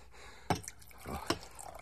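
A drink poured from a bottle, heard as two brief, splashy liquid bursts with a soft trickle between them. The sounds are fairly faint and there is no talking.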